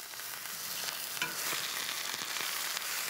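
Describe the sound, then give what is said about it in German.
Hot, steady sizzling as a leg of meat is seared in a pan outdoors: a dense, continuous frying hiss with a few faint knocks of the meat shifting or being stirred. “Die Keule brät Martin zunächst scharf an.”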